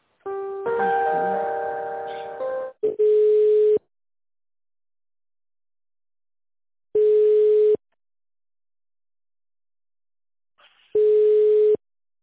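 Telephone tones sound while a call is transferred to an insurance company: a short cluster of mixed tones, then three evenly spaced single-pitch ringback beeps about four seconds apart, with silence between them.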